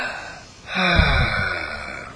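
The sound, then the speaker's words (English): A deep breath drawn in and let out during a guided relaxation exercise, heard as one long, airy, breathy rush of moderate loudness that swells quickly and holds steady for over a second before easing off, with no talking. “take a deep breath and let it all out. Now, take a deep breath and let it all right now.”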